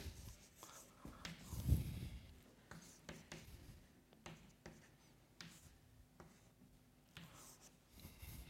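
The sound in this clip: Faint scratching of handwriting comes as a series of short strokes with small pauses, with one slightly louder scrape near the start.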